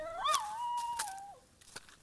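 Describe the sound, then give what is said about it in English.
A dog gives one faint, drawn-out whine or howl. The tone rises briefly, holds steady, then drops away, with a few soft clicks around it. “What is that? Is that a dog?”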